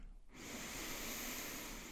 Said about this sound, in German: Nimm einen tiefen Atemzug durch die Nase ein